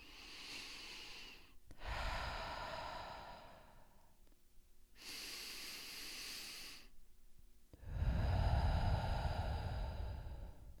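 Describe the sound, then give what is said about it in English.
Two slow, deep human breaths, each a long airy inhale and a long hissing exhale, fairly quiet and alone with no speech. “Did that seem like an eternity? And that was only two deep breaths.”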